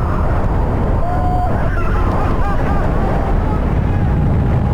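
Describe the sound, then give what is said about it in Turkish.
Strong wind roars steadily over the camera microphone during an electric surfboard ride through a storm of rain and heavy wind on the Bosphorus. The noise is loud, constant and buffeting throughout. “Sörfçüler yağmur ve sert rüzgara rağmen boğazda ilerledi. O anlar aksiyon kameralarına böyle yansıdı.”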